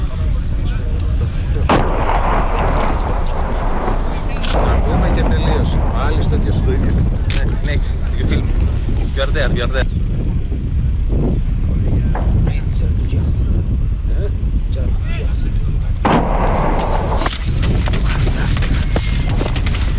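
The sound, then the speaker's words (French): Artillery fire and gunshots, with tracer rounds, in combat: repeated heavy booms and sharp cracks scattered across a continuous rough, wind-like roar. “Et ça, c'est quoi? Balle traçante, pour éclairer où tu tires.”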